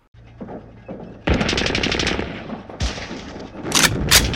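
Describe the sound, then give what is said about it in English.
Machine-gun fire sound effect rattles out in a few loud rapid bursts, separated by brief pauses, with sharp high crackles in the final bursts. “I mean, does it really matter when you're getting shot at?”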